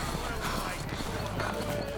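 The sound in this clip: Horse hooves clip-clop on a road in a steady, continuous stream of hoofbeats that stays at an even loudness for the whole two seconds.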